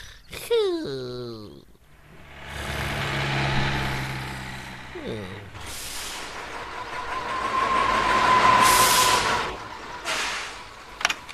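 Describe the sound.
Jupiter, the cartoon fire engine, starts up: its engine rumble swells, rises and fades while voices talk.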